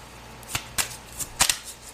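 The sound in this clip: Tarot cards are shuffled and drawn in a quiet run of several short, crisp snaps and flicks, irregularly spaced, with near silence between them.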